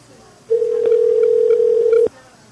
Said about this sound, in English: We tried to call you back once before, and it just went right to voicemail, so waited a second before we dialed back.